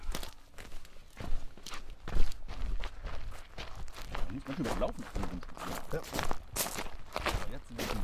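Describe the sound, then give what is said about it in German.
Footsteps walking steadily over ground, a continuous run of soft irregular steps with faint voices in the background. “Wir laufen da mal hin.”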